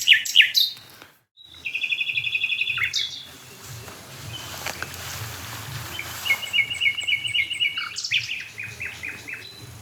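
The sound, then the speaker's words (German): Nightingale singing from a dead oak in a hedge near barns, bright phrases of chirps, a rapid rattling trill and quick repeated notes, broken by short pauses over a faint low hum. “Die Nachtigall an der toten Eiche in der Hecke”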